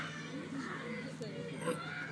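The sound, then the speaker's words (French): Audience members imitate a seagull call during a comedic seagull casting at a live show, with several overlapping voices giving squawking, mewing cries over steady crowd murmur. “Bon, là, alors là, il y a une mouette montagnarde que j'aime beaucoup. Il y en a même deux.”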